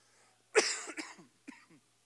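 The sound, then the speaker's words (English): A man coughing after weeks of a lingering cough: one harsh, loud burst followed by a few smaller, raspy coughs, fairly quiet overall. “go ahead and pray this thing out of me. I've been fighting a cough for 3 or 4 weeks, and I'm sick of it.”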